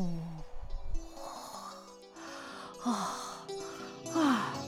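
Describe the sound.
A voice acts out the heavy panting of an exhausted north wind: a few drawn-out, breathy gusts mixed with faint moaning tones in an uneven rhythm.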